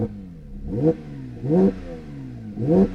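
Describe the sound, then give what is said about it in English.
Car engine accelerating as it drives off, loud and alone, with three rising surges of revs, each followed by the pitch sliding back down before the next climb. “We're going to drive it. Of course we're going to drive it. You didn't think I wasn't going to drive it, did you? Let's get on the road.”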